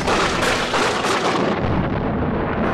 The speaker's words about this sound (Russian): ударил страшный гром. В лесу стало темным-темно, и пронесся вихрь.